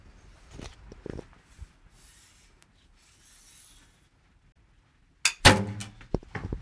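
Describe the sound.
A sharp, loud impact of an arrow, shot from a highly advanced bow fitted with sights, striking the target near its centre. It comes after a stretch of near quiet and soft rustling, followed by a few fainter knocks and clicks.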